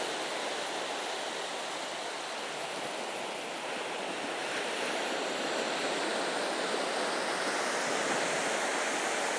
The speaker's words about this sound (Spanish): Y este es el ruido justo de la orilla.